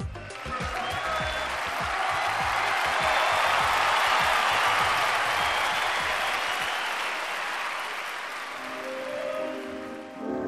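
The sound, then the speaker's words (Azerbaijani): Contest participants in Pesaro, Italy, applaud in a dense, steady clatter of many hands that swells slightly midway, then tapers off toward the end. “Bəli, əzizlərimiz, bu alqışlar bizimdir. Bizim, mənim yox ha, bizim. Amma bu dəqiqə eşitdiyiniz bu alqışları bizə siz yox. İtaliyanın Pezara şəhərindən Cittata Pezara müsabiqəsinin iştirakçıları çatdırdı.”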